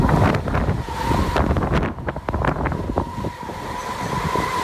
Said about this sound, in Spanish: Aquí vive la tramontana. Es el pueblo donde más sopla.